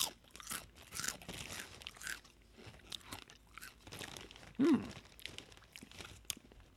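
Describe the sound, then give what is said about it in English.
Crunchy cheese-flavoured snack being chewed, with a lager-like taste: many crisp, irregular crunches and grinding bites, fairly quiet, with no talking. “I'm getting a little lager taste right now. With a little cheese. Hold on, I'm taking another taste.”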